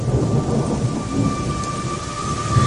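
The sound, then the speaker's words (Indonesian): A heavy, sudden downpour with strong wind produces a loud, dense, continuous roar that holds steady throughout without breaks or quieter gaps. “Dan tiba-tiba hujan mulai turun deras, disertai dengan angin yang berhembus sangat kencang.”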